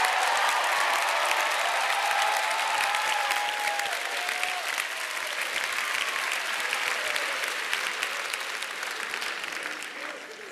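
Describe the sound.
Loud, dense applause from a large audience in a university chapel welcoming visiting guests, with sustained clapping for about ten seconds that slowly tapers toward the end.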